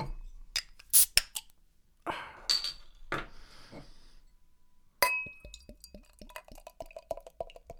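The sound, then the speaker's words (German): A bottle of non-alcoholic Gusswerk beer is opened: sharp glass clinks and handling knocks, a quieter stretch, then a sudden burst with fizzing and many quick, bright ticks and drips. “ich komme gleich einmal zum Thema und werde die Flasche öffnen.”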